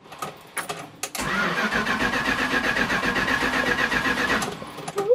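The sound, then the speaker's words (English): A 1974 Dodge motorhome engine, an old vehicle slow to warm up, starts: a few uneven cranking bursts, then it catches into a steady, rough, mid-pitched running drone for about three seconds before dropping away. “This is a 1974 vehicle. It takes a good 30 minutes to warm up.”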